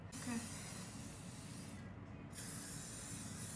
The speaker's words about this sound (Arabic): بس اني قبل ما افككه بحط سبراي من قلب عشان ما يطيح